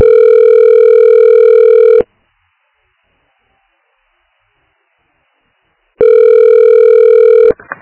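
Ringback tone sounds while calling another office extension: a loud, steady, buzzing tone lasting about two seconds, roughly four seconds of silence, then the same tone again, ending in a brief crackle.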